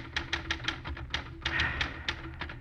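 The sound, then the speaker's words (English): Keys clack on a battered desk typewriter in a run of quick, irregular strikes with slight pauses between bursts, each keystroke a sharp tap with a thump beneath it. “On his desk, a battered typewriter.”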